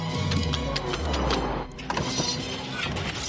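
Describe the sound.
A Lego Optimus Prime toy transforms into brick mode with a continuous mechanical grinding and whirring, layered with ratchet-like clicks and gear sounds that stay fairly steady in loudness throughout.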